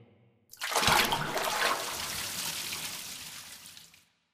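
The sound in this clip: Bath water splashes and sloshes as someone gets into the tub. A loud surge rises quickly, then settles into a steady rushing wash for about three seconds before cutting off.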